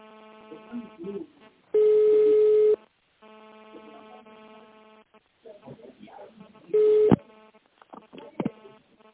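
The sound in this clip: Telephone line tones as a call is transferred at a company: a loud steady tone lasting about a second, then a second shorter tone, with faint voices and line hum between them.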